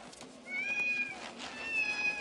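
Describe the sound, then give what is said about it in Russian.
Cats meow in two long, drawn-out, high-pitched cries over a steady background as dozens of cats of different ages, breeds and coat colours run out of a door. “Из двери выбегают десятки котов разного возраста, породы и окраса.”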